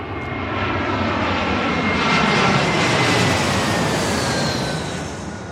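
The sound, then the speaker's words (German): A Lufthansa airliner moves onto the runway with a loud, steady engine roar that swells slightly midway and eases toward the end. “Gerade kommt eine Maschine auf die Startbahn. Wir gucken mal. Das ist der Lufthansa-Flug nach Frankfurt.”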